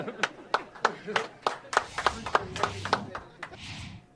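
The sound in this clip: A round of applause: sharp, uneven hand claps from one or a few people, many in quick succession, with voices murmuring underneath.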